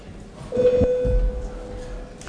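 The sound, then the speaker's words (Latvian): A bell tone rings in the Latvian parliament chamber to call a vote: a single steady, mid-pitched electronic ring that holds for under a second and then fades, over low room rumble and a few soft thumps. “Lūdzu zvanu.”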